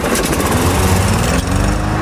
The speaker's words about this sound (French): Et puis, c'est vrai que la tondeuse, elle a, en général, le premier coup, un petit peu de mal à redémarrer.